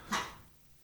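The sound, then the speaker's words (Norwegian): A single short dog bark rises out of the quiet, faint and sharp, then fades to low background noise with no voices. “Det er um, veldig mye mas på den bikkja i dag.”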